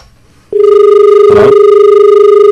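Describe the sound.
A telephone rings for an incoming caller on a radio call-in show: a loud, steady electronic tone starts abruptly and holds with a slight pulsing, interrupted midway by a brief noisy burst.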